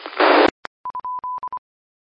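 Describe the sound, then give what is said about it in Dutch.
A radio repeater tone test: a short burst of hiss cuts off into a click, followed by a quick run of short and longer electronic beeps, all at one steady pitch, then silence. “En ik zit even de repeatertoon erin te maken, dus vandaar. Vandaar dat ik even een test. Ja, het werkt wel, denk ik, maar misschien is het al te hard.”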